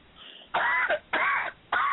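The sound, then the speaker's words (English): A woman clears her throat in three rough, raspy bursts at an even rhythm, each lasting about a third of a second with brief quiet gaps between. The last burst is cut off at the end. “And she clearing her throat.”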